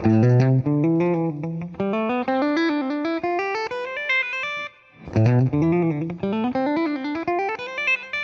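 Guitar playing a fingering-pattern exercise across the B and high E strings, with an effects-laden tone: a steady stream of quick single notes climbing in pitch, a brief break, then a second climbing run.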